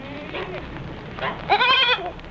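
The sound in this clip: A goat bleats near the end, a loud, wavering, nasal cry with strong harmonics. Faint talk comes before it.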